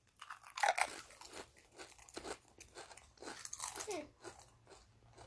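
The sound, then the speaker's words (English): Seaweed-flavoured Pringles crisps being bitten and chewed. A firm first bite is followed by many irregular crunches that stay fairly soft throughout. “Tastes like a regular Pringle. Tastes like gravy. It tastes like a regular Pringle.”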